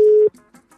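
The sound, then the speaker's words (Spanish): A telephone call ringing out: one loud, steady ringback tone held for about a quarter second, then cut off abruptly, followed by faint, brief murmurs. “Bueno, está llamando, eso es bueno.”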